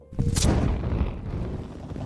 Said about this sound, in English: there is another blast of green flame as Barney makes his way through.